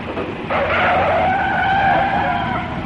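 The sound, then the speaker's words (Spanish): Tyres screech as a coach skids and swerves on the road while its driver fights to regain the wheel. A loud, sustained squeal starts after a moment and holds over a steady engine rumble. “El autocar, mientras el conductor intentaba volver a hacerse con el volante, trazó esos por la carretera, empujando a unos contra otros.”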